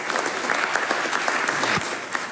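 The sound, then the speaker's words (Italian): Audience applause at a business conference: dense, steady clapping from a crowd that holds at an even level throughout. “E noi facciamo applauso anche per i tempi.”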